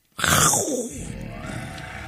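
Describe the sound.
A human voice imitates a lion's roar: one loud, rough burst that erupts suddenly and then trails off into a long, raspy rumble.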